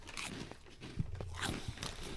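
Faint crunchy chewing of Cheetos Sweetos cinnamon puffs, a few soft bites and crunches over a low background hiss.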